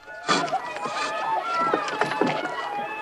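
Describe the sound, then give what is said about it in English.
A rowing boat pulls up alongside a wooden jetty as people climb out, with watery splashing, knocks and bumps, and scuffing footsteps over a steady background wash. “John rows the boat up alongside a wooden jetty. Roger leaps up onto the jetty and ties the boat to it as the others disembark.”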